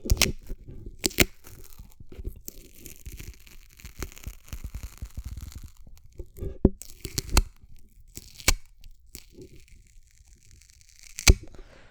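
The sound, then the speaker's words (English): Duct tape being torn and crinkled makes irregular crackling rips, with several sharp, loud snaps scattered among softer tearing noise. “And so I've got this duct tape in my hand right now.”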